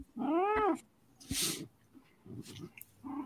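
A house cat lets out one loud, drawn-out meow with a rising-then-falling tone, followed by softer breathy noises, rustling and a few faint scrapes.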